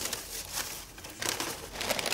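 Paper bags crinkle and rustle as they are filled with toys for gorillas, in loud, uneven bursts of crumpling with a brief lull in the middle. No voices are heard.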